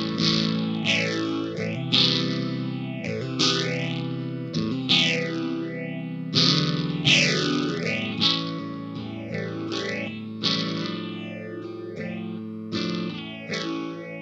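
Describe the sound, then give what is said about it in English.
An electric guitar, a B.C. Rich Mockingbird, is played through a Spaceman Explorer phaser pedal into an amp. Gritty, sustained chords carry a repeated swirling, whooshing sweep that rises and falls in a steady rhythm. “Everything up until now has been guitar straight into amp. Yeah, I've got a Spaceman Explorer phase on now.”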